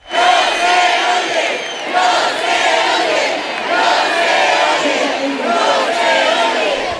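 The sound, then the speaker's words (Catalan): Festival de les Arts audience in Valencia protesting low volume at the music festival, a loud crowd chanting in unison in repeated rhythmic swells that continue steadily for about seven seconds. “I protestes dels assistents al Festival Musical de les Arts fa unes hores a València.”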